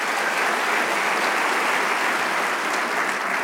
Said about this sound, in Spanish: Le damos un aplauso al Rey de Reyes.